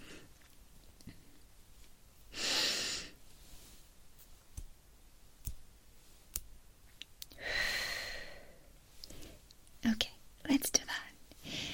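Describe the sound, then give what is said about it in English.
Slow, deep breathing during a guided breathing exercise: two long, soft airy breaths separated by a quiet pause, with faint clicks and whispery sounds around them. “Breathe in. 1, 2, 3, 4. Breathe out.”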